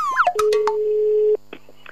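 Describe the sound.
Telephone line tones as a call is placed: a few short sliding electronic chirps, then one steady mid-pitched tone held for about a second before cutting off, followed by fainter brief tones.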